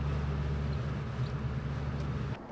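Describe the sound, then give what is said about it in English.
Vehicles pull up outside a sheriff's office in Burley Pines, their engines giving off a steady low droning hum that cuts out shortly before the end. “The vehicles pull up outside the sheriff's office in Burley Pines.”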